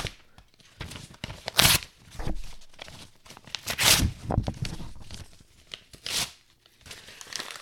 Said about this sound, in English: Page two is pretty horrific. Yeah, this is this is gonna be a bit intense. So now that I've seen it, Scared the crap out of me. This is gonna be hard. I'm gonna rip it up.